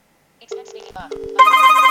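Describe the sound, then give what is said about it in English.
A phone call placed with Siri begins with a few short electronic tones, then a steady, bright ringing tone that continues to the end. “Okay, I'm pressing 5 now. And there we go. There we go. That's the phone call.”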